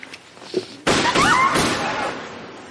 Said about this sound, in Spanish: Nairobi continúa hablando con los rehenes y dispara al techo.